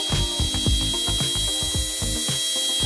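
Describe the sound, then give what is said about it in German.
A dentist's drill at work on teeth: a thin, high, steady whine runs over a quick, regular series of mechanical clicks and low knocks. “Wirklich niemand, den ich kenne zumindest, ich auch nicht, geht gern zum Zahnarzt und lässt sich da an den Zähnen rumbohren.”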